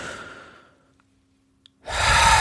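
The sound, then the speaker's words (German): Deep breathing during a guided relaxation exercise. A long, breathy exhale fades away into near silence, and after a short pause a strong, rushing inhale rises sharply and holds loud to the end. “Und jetzt können wir einfach mal 2, 3 tiefe Atemzüge nehmen miteinander, so wie wir es so ganz oft machen.”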